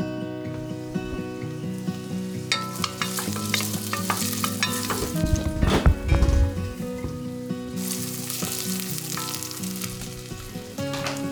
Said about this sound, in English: and we're going to heat it up and saute it in just until it's fragrant.